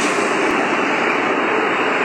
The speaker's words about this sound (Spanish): Y en el sucio y maloliente metro.